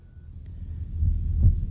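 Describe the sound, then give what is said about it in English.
Low, muffled heartbeat-like throbbing opens a blues tune, a soft pulsing thump that builds gradually in loudness and swells toward the end. “Feel the heartbeat.”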